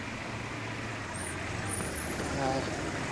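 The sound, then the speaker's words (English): A bus drives away, its low engine rumble swelling slightly toward the end beneath a voice speaking. “She leans out of the window and touches his hand as the bus drives away.”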